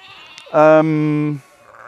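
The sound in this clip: A sheep gives a single loud, sustained bleat lasting about a second. The bleat is a buzzy, harmonic-rich tone that ends abruptly.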